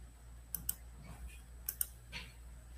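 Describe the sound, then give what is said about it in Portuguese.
Clicking on a computer, likely a mouse: four sharp, faint clicks in two quick pairs, like two double-clicks, over a low steady hum. “Tô clicando, não tá abrindo.”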